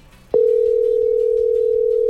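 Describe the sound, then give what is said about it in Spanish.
A telephone dial tone on a call to a taxi driver: a loud, steady low hum that starts abruptly after a brief quiet moment and holds unbroken and level to the end. “No, estamos marcándole en este momento a Caliche, el taxista que además se ha hecho viral.”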